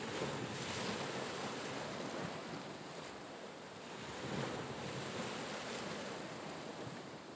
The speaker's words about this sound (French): La marée monte. Puis se retire.